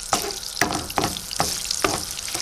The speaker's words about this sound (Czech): Připravíme si pánev a rozpustíme špek trošku sádla.